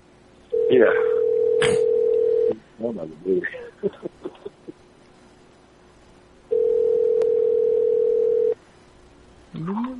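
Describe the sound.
Telephone ringing: two long, steady buzzing ring tones about two seconds each, separated by a pause in which a voice speaks briefly.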